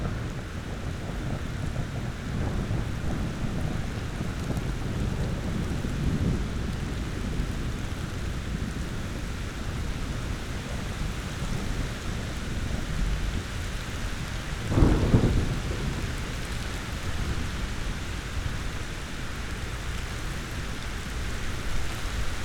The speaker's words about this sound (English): this is the best storm I had ever recorded so far, I tell you what. So, I thought I'd let y'all listen to it.